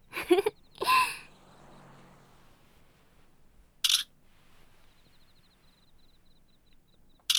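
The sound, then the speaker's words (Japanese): Camera shutter clicks as photos are taken: a few sharp, bright snaps. Two come close together at the start, another follows a few seconds later and one lands at the very end, with near quiet between them. “いや、今スカートの中撮ったでしょ。”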